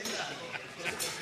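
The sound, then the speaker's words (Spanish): Glasses clinking in a toast among old school friends drinking together at a late-night reunion: a few bright, brief clinks that ring out over steady chatter and overlapping voices. “Entonces, bueno, sigamos brindando.”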